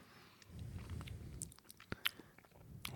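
Chewing and biting while someone tastes a food: soft, steady, moist mouth sounds with a few sharp crunchy clicks scattered through. The sound is quiet throughout, with no talking.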